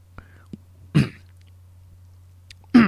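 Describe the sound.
Throat clearing and coughing: two loud, rough coughs stand out, with a few faint throat clicks and small rasps between them, and no talking.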